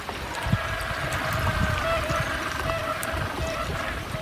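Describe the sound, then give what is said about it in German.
Wind and gentle waves at Port Lockroy harbour in Antarctica, heard as a steady, soft wash of water and air noise with a few low splashes, fairly faint and even throughout. “das ist die normale Geräuschkulisse in Port Lockroy. Zum einen der Wind und die sanften Wellen, zum anderen sind das die krächzenden Rufe der Kormorane.”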